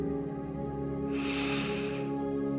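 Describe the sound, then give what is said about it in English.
A single deep breath is drawn in during a guided meditation. The soft, airy inhale swells for about a second over a steady, sustained tonal drone that continues beneath it. “take a deep breath in”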